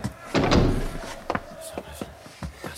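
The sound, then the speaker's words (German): A door swung shut in a radio drama scene: one solid, heavy thud with a brief rumbling tail, followed by a few light clicks and knocks. “Die Tür zu.”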